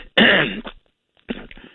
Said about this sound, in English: Hey, my throat a little bit here. Oh, what's the matter? A little cough, I guess.